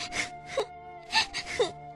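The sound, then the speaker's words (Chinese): A voice imitates a monster's fake crying with whimpering, moaning wails in four short bursts, each wavering up and down in pitch. “妖怪假装哭哭啼啼，斯莫利契克”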